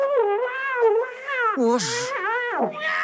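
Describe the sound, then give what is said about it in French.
A cat hidden inside an engine meows in long, wavering, drawn-out yowls that slide up and down in pitch, several cries running close together, loud and alone with no talk. “Il y a encore une bestiole là-dedans. Oh, on dirait... Allez, sors de là, sors de là.”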